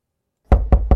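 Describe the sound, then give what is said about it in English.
Three heavy, evenly spaced knocks on a door, deep and thudding, arrive after a brief silence. “This summer, that knock at your door could be Children's Health Foundation.”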